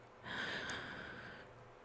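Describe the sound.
A slow breath drawn in during a guided breathing relaxation, a soft airy hiss that swells and holds for just over a second before easing off, alone with no other sounds.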